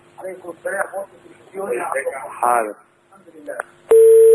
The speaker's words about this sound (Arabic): انت ما وطيتش التلفزيون، انت قطعت الاتصال. انت عاود ان شاء الله الاتصال